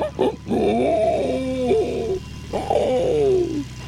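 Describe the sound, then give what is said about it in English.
A person imitating a pig with the voice: whiny, nasal squeals, a short burst, a long drawn-out stretch, then another squeal after a brief pause that slides downward in pitch. “I didn't know he made pig noises. No, that was you, and now he wants to date you.”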